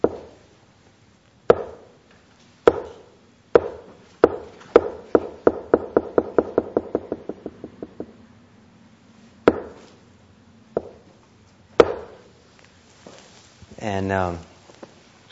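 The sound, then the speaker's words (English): A wooden han block is struck to call monks to a Zen meditation hall. Several slow, sharp, resonant knocks speed up into a rapid roll that fades, then a few single knocks return, followed by a short voiced sound. “In Zen monasteries, they have this wooden plaque, this wooden block that is used for calling people to the meditation hall.”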